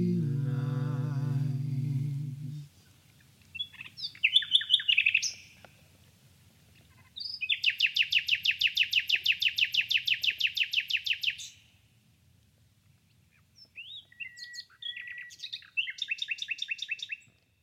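A nightingale sings in three separate phrases: a short burst of warbled notes, a long, fast, loud repeated trill lasting about four seconds, then more rapid chirping notes. A low droning tone sounds in the opening seconds before the song begins.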